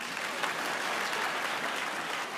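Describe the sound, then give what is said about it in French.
An audience at a French stand-up comedy show applauds in a dense, steady wash of clapping that stays even from start to finish. “Et ceux qui sont fidèles, fidèles, applaudissez.”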